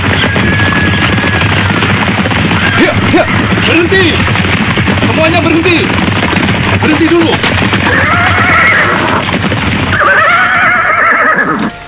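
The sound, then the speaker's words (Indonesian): Hoofbeats of a riding party on horseback arriving at a village, with several neighs and whinnies rising above a dense, continuous loud wash of noise. “Setelah separuh hari berkuda, akhirnya rombongan Raden Husain memasuki wilayah desa Japat.”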